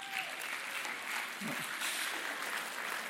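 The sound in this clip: Audience applause greets a speaker coming up to the stage at a talk, a dense, steady wash of many hands clapping that holds an even loudness for the whole stretch without a clear build or fade.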